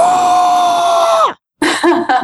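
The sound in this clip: A loud human scream holds one high pitch for over a second and then drops away. After a brief silence comes a shorter, wavering vocal cry.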